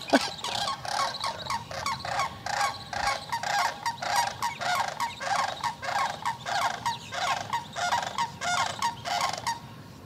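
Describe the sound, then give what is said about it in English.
Big red-headed cranes call about 50 yards away, a loud, rhythmic series of many harsh, trumpeting honks repeating steadily. “Those things are about 50 yards away and they're that loud. Big cranes. The ones with the red heads.”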